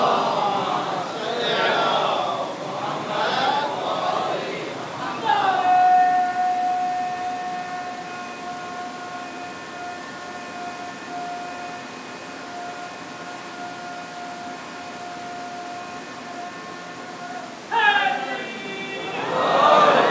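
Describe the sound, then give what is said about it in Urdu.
A man loudly shouts a religious slogan at a gathering, holding one long, steady, ringing note for about twelve seconds. Crowd voices come before it and return after it. “اس طرح سے میرے اس بھائی نے اپنی پوری قوت سے نعرہ لگایا”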